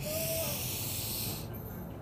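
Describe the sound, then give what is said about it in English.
A deep breath drawn in slowly through the nose, a soft airy hiss held steady for about a second and a half before easing off, quiet and alone. “You can take some deep breaths. Inhale through the nose deeply.”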